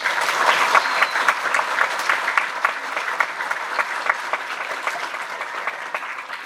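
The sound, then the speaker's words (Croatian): Applause from an audience at a handbook launch evening: a dense, unbroken clatter of many clapping hands that stays even and steady throughout. “Pozivam je da nam se obrati, a vas za jedan pljesak.”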